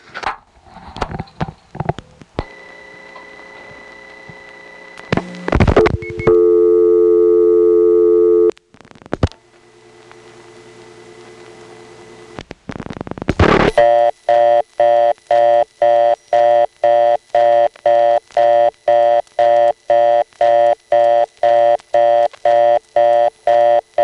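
A telephone exchange handles the dialed number 46, with clicks and switching noises and a few steady tones. A long run of evenly spaced, repeating busy-tone beeps follows, showing the second digit blocked.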